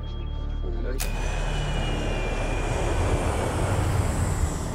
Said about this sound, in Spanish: En el radar, los controladores aéreos ven cómo el vuelo 648 cambia de curso.